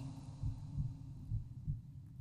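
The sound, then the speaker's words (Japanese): A person's heartbeat thuds in low, muffled pulses, a few steady beats repeating at an even rhythm over a faint continuous hum, with no voices. “私の鼓動、私の中の音。”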